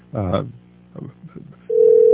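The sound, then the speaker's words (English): A steady telephone line tone after a call-in caller is lost, following a short stretch of speech and holding loud and even to the end. “I think we lost our caller. So I'm going to ask our producer to see if they can get Joel Skousen back on again.”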